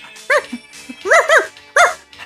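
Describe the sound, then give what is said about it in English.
A dog barks a few times in short, bright bursts with uneven gaps, the barks loud and clear over a quiet background. “And this is my dog.”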